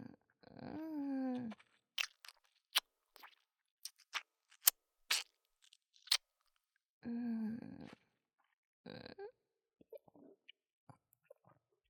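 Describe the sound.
Chewing and swallowing food makes quiet mouth sounds, with sharp wet clicks and smacks scattered between two drawn-out voiced sighs.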